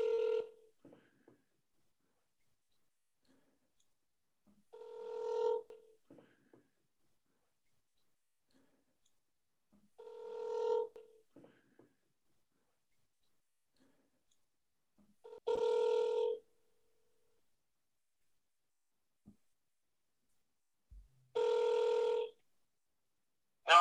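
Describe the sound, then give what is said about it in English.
Telephone ringing while a number is being called: a series of buzzy, mid-pitched ring tones, each about a second long and evenly spaced roughly five seconds apart, with near silence between them. “We're just gonna cold call this number.”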